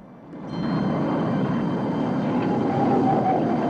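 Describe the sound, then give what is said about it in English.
Deep, steady droning roar of three planes flying overhead, swelling in quickly at the start and then holding level with no voices. “Three planes soar overhead, leaving bright, straight vapor trails in their wakes.”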